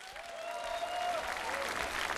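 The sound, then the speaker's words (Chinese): An audience applauds to honor a teacher at a cultural ceremony. The sustained, dense clapping from many people grows slightly fuller as it goes on. “让我们把掌声再次送给高度老师。”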